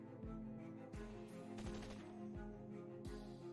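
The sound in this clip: Faint gunshots: five evenly spaced sharp reports roughly 0.7 seconds apart, set against a constant low hum.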